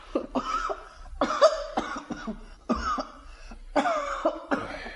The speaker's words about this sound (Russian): Мать, мать, кашлять стал